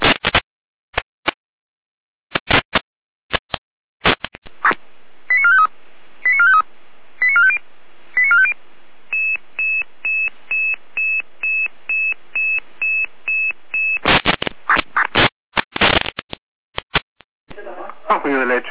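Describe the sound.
Radio pager alerting tones for a test call: short electronic tone bursts, then a long run of evenly spaced identical beeps, followed by a dense cluster of rapid tone bursts.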